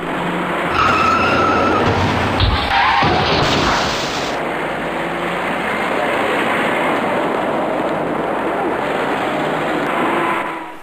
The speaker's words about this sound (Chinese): 在眼前由东向西方向的车道里即将发生一起多车相撞的事故，您注意看。